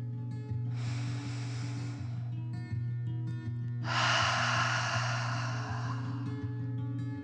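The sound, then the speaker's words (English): A deep breath in and out, two long airy breath sounds, the inhale and then a louder exhale, heard over a steady low musical drone with soft background tones. “As Bee relaxed, she took a deep dragon breath in and out.”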